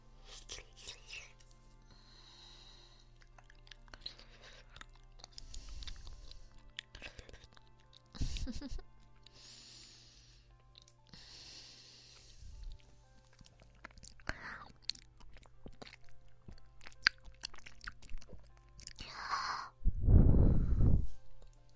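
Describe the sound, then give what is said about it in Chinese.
Soft chewing and crunchy bites come as two people share a bite of food, quiet and intermittent. Whispered voices and sighs mix in, with a louder burst near the end. “我吃一口，你吃一口，我吃一口，你再吃一小口。”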